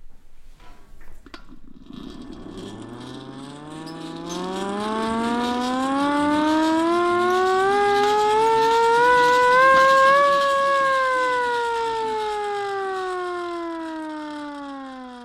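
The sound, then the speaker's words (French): Small hand-cranked siren winding up after a few faint clicks, its wail climbing steadily in pitch and loudness to a strong peak, then slowly beginning to drop. “Non, c'est une sirène à manivelle. Je vous fais écouter.”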